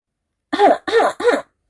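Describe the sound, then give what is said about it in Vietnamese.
A dry cough at a Buddhist holy site: three sharp bursts in quick, even succession, loud and alone, with short gaps between them. “Một trận ho khan cắt ngang cái ôm của cả hai.”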